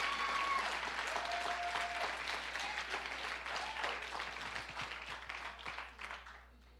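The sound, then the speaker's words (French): Congregation applauding during a church sermon: dense, steady clapping that holds for several seconds, then thins and fades out at the end. “Ah, acclame sérieusement, come on, man.”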